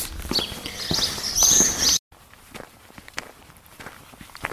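Footsteps of walking on the Camino across the Meseta, on the way to Boadilla del Camino. Many steady, crunchy steps keep an even rhythm, with a brief cut partway through.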